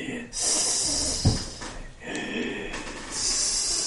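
Strange, raspy breathing with airy hissing, coming in a few uneven breath cycles. A sharp, snort-like burst cuts in near the middle between softer, wheezy passages.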